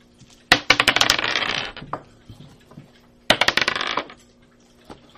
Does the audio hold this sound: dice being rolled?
yes